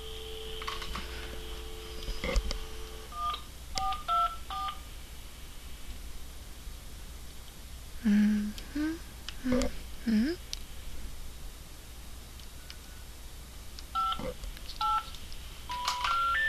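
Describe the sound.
Telephone keypad dialing tones from a phone: several groups of short, clean dual-pitched beeps separated by pauses, over a steady low background noise.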